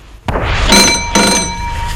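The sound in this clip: A telephone ringing: two bright, tonal bell bursts with sustained high harmonics, each under half a second, follow a sudden loud onset. The ringing is fairly loud, with no talk.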